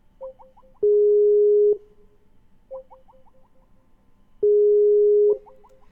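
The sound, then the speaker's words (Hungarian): A Skype call reconnection tone: a quick series of short electronic blips, then a long steady beep. The pattern repeats twice, clean and loud with no talk. “Laj, Skype, köszönjük Skype. Várjon, amíg megpróbáljuk helyreállítani a hívást.”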